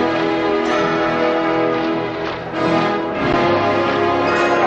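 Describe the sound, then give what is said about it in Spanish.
Church bells pealing over a large plaza as thousands gather for a ceremony, a dense, sustained clangor of overlapping tones that carries on throughout without pause, no voices. “Las campanas comienzan a repicar.”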